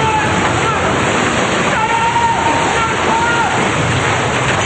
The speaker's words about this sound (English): The pool gushes straight up like a huge geyser. The four get blasted with water and debris.